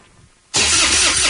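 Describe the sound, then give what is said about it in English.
Truck engine cranking on a dead battery and failing to start, a loud, rough mechanical churn that bursts in suddenly after quiet and holds steady without rising into a running idle. “Nothing is more frustrating than a dead battery. When your truck won't start or your boat or ATV leaves you stranded far from home, that's not good.”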